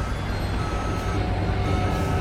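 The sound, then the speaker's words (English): A car backs up and drives away down a street, heard as a steady, dense rumble of engine and road noise that stays loud and even throughout. “Tucker backs up and drives away down another street.”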